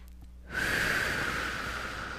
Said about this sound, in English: Let's take a nice deep breath.